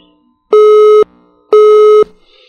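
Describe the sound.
Telephone busy tone after a dropped call: two loud, steady beeps of equal length and pitch, each about half a second, separated by a short silence, with no voices.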